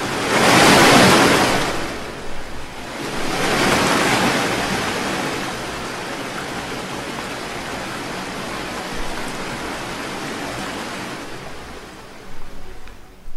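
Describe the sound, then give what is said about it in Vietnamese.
Violent ocean waves crash around a small boat. Two loud surging rushes come early, then a continuous roaring wash of surf carries on with no other sounds. “Những con sóng cuộn trào dữ dội, trong chớp mắt đã đến chung quanh con thuyền nhỏ.”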